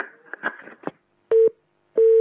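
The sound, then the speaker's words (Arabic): Telephone busy tone after a caller's line is cut off: two steady, mid-pitched beeps of equal length separated by silence, preceded by a brief burst of garbled line noise. “يبدو أن الاتصال قد قطع.”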